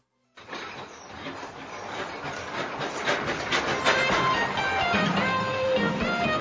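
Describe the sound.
A train sound effect: rolling rail clatter with a rhythmic clickety-clack starts after a brief silence and steadily grows louder, with a metallic, hissing edge and no talking.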